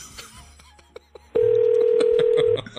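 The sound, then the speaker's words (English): A telephone number is dialed: soft clicks and faint beeps come first, then a loud, steady mid-pitched line tone holds for just over a second before cutting off. “We're going to dial it.”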